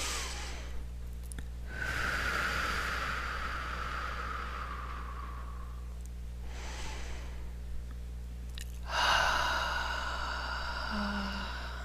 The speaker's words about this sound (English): So nice deep breath in through the nose and out through the mouth.